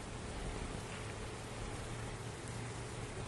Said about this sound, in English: Just listen. The rain has started.